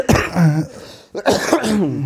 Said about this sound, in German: Produktiver Husten. Genau, produktiv. Gutes Zeichen am Ende einer Erkältung.